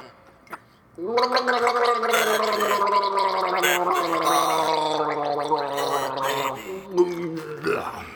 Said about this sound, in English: You want to hear me gargle? Okay, here we go.